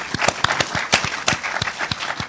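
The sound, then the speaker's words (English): A debate audience applauds a speaker on food labelling: crisp, separate claps land in a quick, fairly even rhythm over a softer bed of clapping. “A big round of applause for Noel, ladies and gentlemen.”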